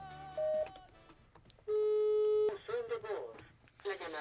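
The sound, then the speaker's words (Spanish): Ringback tones of an unanswered telephone call: two long, steady electronic tones, with people talking between and after them. “Le estamos marque y marque también fuera del aire, pero no nos contesta.”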